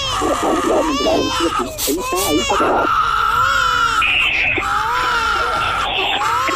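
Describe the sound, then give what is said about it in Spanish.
A newborn baby girl cries just after being delivered: loud, high, wavering wails that rise and break, continuous and intense throughout. “Ya, ¿esa es la niña? ¿Ese es el llanto de la niña? Es la niña.”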